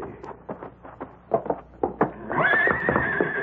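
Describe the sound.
Gila stallion in a barn stall: a series of sharp, uneven hoof knocks as it kicks, followed by a loud, drawn-out whinny.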